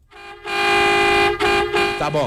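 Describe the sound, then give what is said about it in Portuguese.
A truck horn sound effect played from a soundboard button: one long, loud, blaring tone with a brief dip partway through, then a short wavering tail as it cuts off. “Encontrou o botão da buzina do motorista.”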